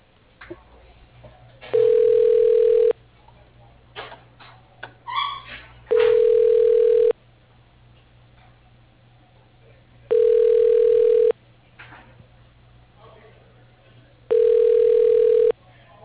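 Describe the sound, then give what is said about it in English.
A telephone ringing tone plays while a call is transferred: four steady, evenly spaced mid-pitched rings of about a second each. Quiet gaps between the rings carry faint background noises. “Thank you. Your call is being transferred.”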